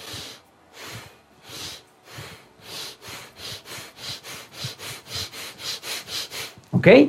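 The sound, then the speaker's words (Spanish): Rapid breathing in through the nose and out again during a hyperoxygenation exercise, with many rhythmic breath sounds whose pace quickens partway through. “vas a inhalar por la nariz y vas a subir tus manos. Exhalas y bajas.”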